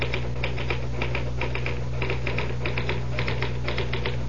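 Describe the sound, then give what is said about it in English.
A typewriter clatters in rapid, uneven bursts of many sharp keystrokes, steady and fairly loud throughout, over a constant low hum. “Type until I tell you to stop.”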